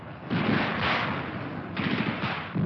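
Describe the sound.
Gunfire in a battle with tanks rumbling nearby: a dense, continuous roar of shooting with rough bursts that swell in loudness a few times, heard alone without voices.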